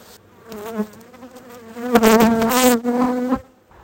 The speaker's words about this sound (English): Rolling the bees off the frames with my bee brush just takes too long with this colony.